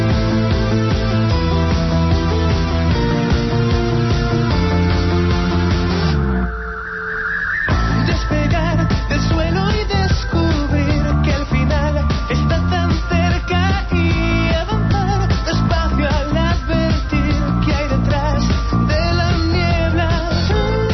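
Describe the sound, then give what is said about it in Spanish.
Music from the master CD of a newly finished album playing on a studio CD player, with electronic touches and a clean vocal. It plays loud and dense throughout, with one brief thinning near the one-third mark and a rising sweep. “Y esta es la copia del CD, la copia del máster que tenemos ahora mismo en el reproductor de CD del estudio. Y suena así.”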